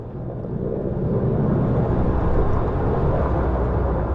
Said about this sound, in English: That's a helicopter flying to and from a smoking mountainside, which the copter is dousing with water.